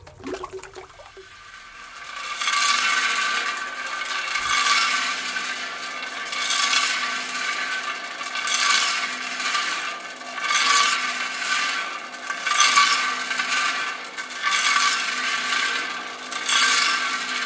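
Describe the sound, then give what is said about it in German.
A rotating drum mill mixes glaze in a tile stove factory, a loud, continuous grinding rumble with hissing texture that swells and eases in a steady, regular rhythm, rising in after a quieter first two seconds. “Im Erdgeschoss steht die Maschine, mit der diese gemischt wird.”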